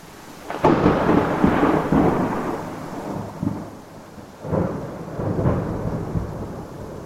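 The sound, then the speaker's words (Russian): Thunderstorm with heavy rain and thunder: a sharp crack opens a long, loud rolling rumble over steady rain, and a second deep rumble follows later as the downpour continues. “Дождь перешел в грозу. Яркие молнии перемежались раскатами грома.”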